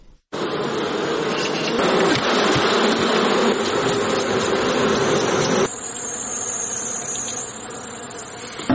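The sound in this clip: Honey bees buzz at a bee farm in Helmand, a dense, loud, unbroken drone from many insects that holds steady throughout, its texture shifting slightly partway through.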